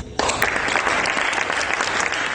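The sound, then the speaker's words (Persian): Audience applause at a Venice film festival winners' event. After a brief quieter moment it starts abruptly, then continues as a dense, steady wash of many hands clapping. “ازتون میخوام تشویقش کنم”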